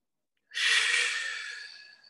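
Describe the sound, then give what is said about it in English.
One deep breath drawn in through the nose or mouth, a soft airy rush that swells quickly and then tapers off over about a second and a half, heard alone. “Deep breath in.”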